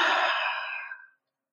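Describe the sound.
One big, deep breath in during a calm guided reflection: a soft, airy rush that starts fairly strong, tapers off over about a second and gives way to silence.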